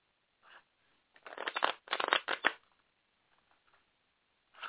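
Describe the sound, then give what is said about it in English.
Shuffling of an oracle card deck: a cluster of quick papery riffling bursts in the middle, with a faint brief rustle before and after and no talk. “Guidance from Your Angels by Dorian Virtue Oracle cards, and I'm just going to pull, let's go with just two cards.”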